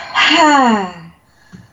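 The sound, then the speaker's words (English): A person demonstrates deep breathing with one loud, breathy, partly voiced breath whose pitch slides downward before fading, followed by a faint short sound. “And she needs to breathe more like this.”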